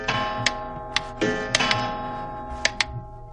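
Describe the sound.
A clock striking, its ringing tone sustained throughout while a series of crisp mechanical clicks and ticks sound at uneven intervals.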